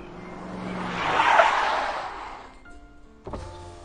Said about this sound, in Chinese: 车窗缓缓地摇下